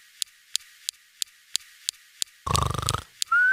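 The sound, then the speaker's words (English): A Mars rover's laser zaps tiny rocks, producing seven sharp, evenly spaced clicks about a third of a second apart. A brief burst of buzzy, rattling noise follows, with faint clicks continuing through it. “It's more like a series of clicks. This is the sound of the rover using a laser to bust up tiny rocks.”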